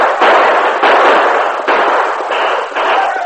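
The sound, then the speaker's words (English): Gunfire from a posse shooting down at outlaws: several sharp, loud shots in quick, uneven succession, each leaving a harsh, noisy tail that blurs into the next. “Ride around them. Keep firing down at them.”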